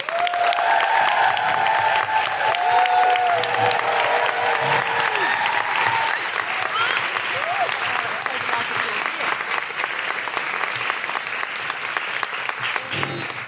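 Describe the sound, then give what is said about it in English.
An audience claps and woohoos to welcome a guest onto a live show. Steady, dense applause runs throughout, and high whooping cries ride over it in the first half before it eases slightly toward the end. “Please put your hands together and make incredible woohooing noises for the wonderful Seyi Akiwowo.”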